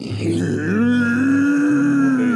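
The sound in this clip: A man's voice imitates an embittered cow mooing: one long, drawn-out, low groaning moo that climbs slightly in pitch partway through and then holds steady to the end.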